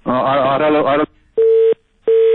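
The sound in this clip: Telephone tone after a caller's line disconnects: two steady, mid-pitched beeps separated by a short silence, following a brief stretch of voice at the start.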